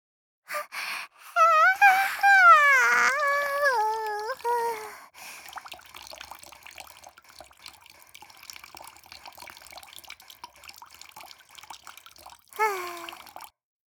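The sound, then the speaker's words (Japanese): Urine splashing in a steady, fairly quiet trickling stream for several seconds, preceded by a wavering, pitched vocal sound and followed by a brief voice at the end. “黄金シャワー、おしっこで汚してあげる。”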